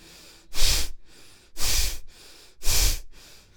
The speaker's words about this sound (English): Start breathing. Concentrate on the exhalation.